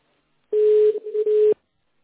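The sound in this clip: Ringback tone while an outgoing call is placed to a company's service line: a single steady mid-pitched tone lasting about one second, briefly breaking up in the middle, then silence.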